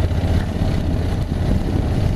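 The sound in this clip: Steady low rumble of a 2019 Honda NC750X motorcycle engine pulling up a steep hill in third gear at about 20 mph, an even, unbroken drone with no shifts or revving.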